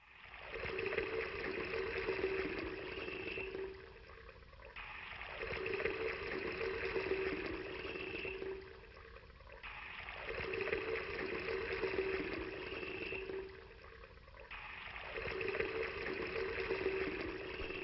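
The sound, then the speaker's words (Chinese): Water pours from large buckets over stacked firewood and chunks of meat, a loud rushing, splashing gush in four long surges separated by brief pauses. “现在浇4大桶水在肉和柴上。”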